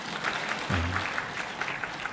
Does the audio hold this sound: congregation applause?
yes